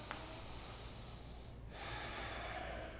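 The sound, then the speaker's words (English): Faint ujjayi yoga breathing, a steady, throaty hiss that pauses briefly midway and then carries on a touch stronger. “Your Ujjayi slowed down, but it's still there. Where there's discomfort, breathe.”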